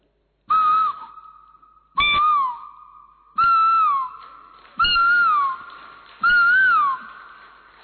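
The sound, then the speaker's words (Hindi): A person whistles an imitation of an Asian koel call: five loud, evenly spaced whistled notes, each bending up and then down in pitch before a sustained trailing tone. “चिड़िया, कोयल,”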